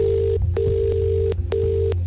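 A telephone rings repeatedly on an outgoing call, a few steady electronic ring bursts separated by short pauses, loud over a low constant hum.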